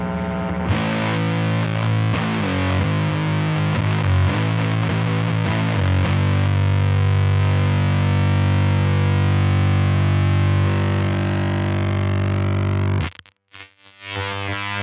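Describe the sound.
Heavily distorted electric guitar through a fuzz pedal set wide open, loud and buzzy, with several strummed attacks early that give way to a long, thick sustained chord. The chord then cuts off abruptly into brief choppy stutters near the end.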